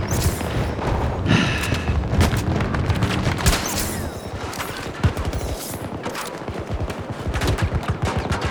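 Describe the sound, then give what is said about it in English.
Pistol gunfire in a shooter video game, many sharp shots in quick irregular bursts mixed with booms and thuds, loud and continuous across the whole stretch. “Oh, I'm trying to get some pistol kills here.”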